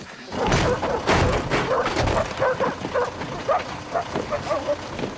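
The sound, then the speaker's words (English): Tracker dogs barking and yipping as they follow a scent, with soldiers and handlers in pursuit. The barks and short yelps repeat in a busy, loud run over dense background noise. “Soldiers get off a lorry with the tracker dogs. The dogs are off at the scent, and they lead their handlers in a rapid pursuit”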